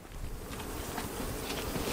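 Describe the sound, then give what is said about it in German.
Carniolan honeybees buzz at a hive holding about 40,000 bees, a faint, steady, unbroken hum of many wings. “Die heimische Karnika-Honigbiene.”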